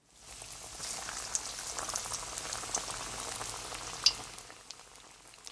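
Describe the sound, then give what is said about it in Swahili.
Potato chips frying a few at a time in hot oil give a steady, faint bubbling sizzle dotted with small crackles and one sharper pop near the end. “Sasa tukaange chopsi. Zikaange kadhaa kwa wakati mmoja, lakini usizikaange zote kwa pamoja, sababu hilo litapunguza nyuzi joto ya mafuta.”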